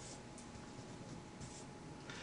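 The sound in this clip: Someone writing during a programming lecture makes faint, scratchy strokes in a few short bursts against a quiet background, with no talking.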